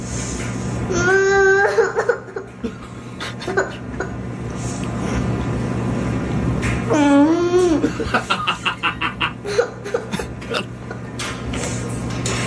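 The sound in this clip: A young child crying, with two drawn-out, wavering wails separated by quieter fussing. Choppy, sob-like bursts follow toward the end over a steady low background hum.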